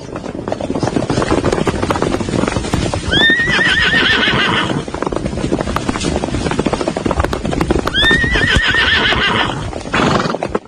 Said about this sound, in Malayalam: രാപകൽ വിശ്രമമില്ലാതെ പാഞ്ഞ കുതിരകൾ ക്ഷീണിതരാണ്